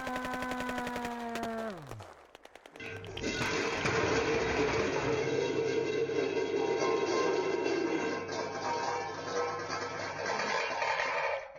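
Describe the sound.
Gunfire in a radio comedy sketch: a falling tone gives way to a few crackling bursts, then a long, dense, loud roar of rapid fire that holds for several seconds and eases slightly at the end.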